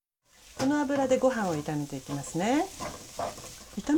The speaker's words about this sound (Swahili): ongeza kijiko kimoja kikubwa cha mafuta ya kupikia pembeni mwa sufuria.